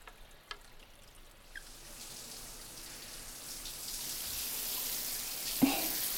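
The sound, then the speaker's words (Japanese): Hot water soaking into hair during a relaxing bath-time hair wash, a soft, hissing trickle like light rain that grows gradually louder, with a few faint taps, and no voices. “たっぷりと髪の毛にお湯を染み込ませて。熱くないかしら。”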